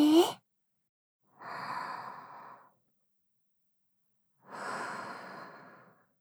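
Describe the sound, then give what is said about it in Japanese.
Slow deep breathing during a relaxing massage: two long, unhurried breaths, an exhale and then an inhale, separated by silence. Each is a soft, airy rush, after a brief sound at the start. “ゆっくり息吐いて、吸って、”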